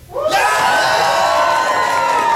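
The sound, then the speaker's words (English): A live audience bursts into loud cheering for a performer. After a brief quiet opening, shouts and whoops swell sharply and hold as a sustained roar. “A cheer for Adam?”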